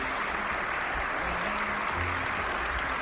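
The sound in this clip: A live audience applauds at an early-morning show, a steady, dense clatter of clapping that holds at even loudness for the whole stretch, with no voices standing out.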